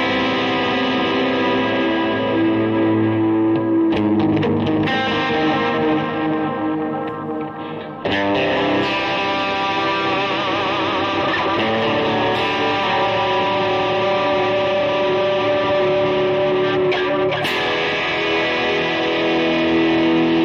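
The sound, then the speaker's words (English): Electric guitar played through a heavy delay effect with the reverb switched off, its distorted, sustained tones smearing into echoing repeats. Loud and continuous, with a brief dip just before the midpoint and no talking. “We got hella delay going on. Let's turn the reverb off. We got major delays.”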